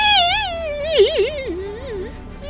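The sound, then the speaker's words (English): A human voice imitates the distressed, childlike wail of a creature trapped in vines during a tabletop role-playing game, a sustained high cry that sinks lower with wobbling, trembling dips. “You hear this very distressed childlike wail of...”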